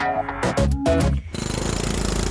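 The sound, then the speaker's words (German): Construction site noise: rapid, regular mechanical pounding like a jackhammer starts partway through and keeps a steady, loud rhythm to the end, after a brief tonal passage. “so eine Baustelle kann einem ja schon der letzte Nerv ausrissen. Sie kennen das vielleicht, wenn man mal 5 Minuten neben einer Baustelle auf einen Bus oder aufs Tramli muss warten. Man hält es einfach schier nicht aus bei diesem Krach.”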